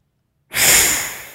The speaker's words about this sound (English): Inhale both nostrils, beginning on side two.